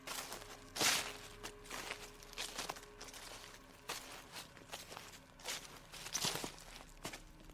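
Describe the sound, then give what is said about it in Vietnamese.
Footsteps rustling through dry leaves: many faint, crisp crunching steps in an irregular rhythm, with no voices. “quả thật là tiếng bước chân sột soạt dẫm lên lá khô thật, chứ không phải là ảo giác.”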